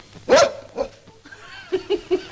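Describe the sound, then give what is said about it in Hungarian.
A dog gives one loud, sharp bark, then a run of softer yips and whimpering sounds in uneven bursts, with no voices over it. “Neki az a tulajdonsága, hogy megérzi, ha valaki hazudik, és rögtön ugatni kezd.”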